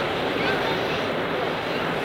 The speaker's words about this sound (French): La nuit est noire. On entend le bruit de la mer.